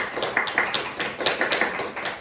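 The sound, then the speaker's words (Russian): Audience applause welcoming an author onstage, a dense, steady patter of many hands clapping at moderate loudness for a couple of seconds, with no voices. “Я прошу вас поприветствовать аплодисментами автора Николая Буканева.”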